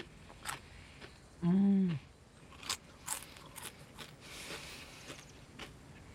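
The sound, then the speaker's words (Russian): Crunchy potato chips eaten from an open bag in a car: a few sharp, crackly bites and chewing crunches, spaced irregularly and fairly quiet, with faint rustling between them. “Она достает из сумки на пассажирском сиденье открытый пакетик картофельных чипсов. Она опускает в него руку, оглядываясь по сторонам, затем ест чипсы. Она жует и улыбается.”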